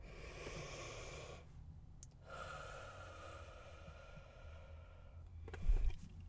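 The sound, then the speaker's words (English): A slow, deep breath during a guided affirmation session: two long, soft, airy breath sounds separated by a brief pause, with no talking. “Let's take a breath.”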